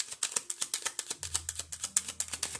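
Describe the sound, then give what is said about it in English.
A deck of tarot cards being shuffled, with cards falling out, produces a rapid, regular run of crisp papery snaps and flicks, while a low soft thud joins partway through. “Lots of cards are falling out. Let me pull that one out anyway.”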